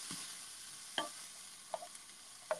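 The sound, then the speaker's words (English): Onions being stirred and sautéed in an Instant Pot: a faint, steady sizzle under a few soft spoon scrapes against the pot, spaced out at a slow, even pace. “I just keep stirring it around, and we're going to do that until the onions are translucent.”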